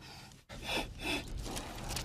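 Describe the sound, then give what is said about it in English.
Deep, measured breathing: a few slow, airy inhales and exhales following a brief pause, faint and heard alone. “The key to this is just deep, measured breath. Follow me.”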